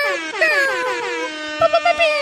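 An air horn sound effect blares in a loud, sustained, brassy blast and ends with a few short, staccato honks.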